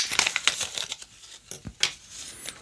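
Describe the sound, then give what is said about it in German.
Crinkling and tearing of packaging as a fountain pen is unwrapped: an irregular run of sharp, papery rustles and crackles, some louder bursts among softer ones, with no talk. “Ein Füllfederhalter. Wann habt ihr das letzte Mal mit dem Füllfederhalter geschrieben? Ich pack den mal aus.”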